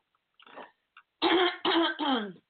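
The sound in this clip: Throat clearing by someone in the middle of a coaching conversation: two faint rasps, then three loud, harsh, voiced clears in quick succession, with no talking around them.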